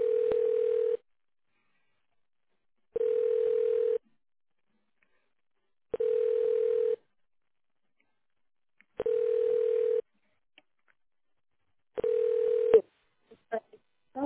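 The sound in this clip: Telephone ringing tone on an outgoing call: five steady one-second tone bursts repeat about every three seconds, followed by a few faint clicks.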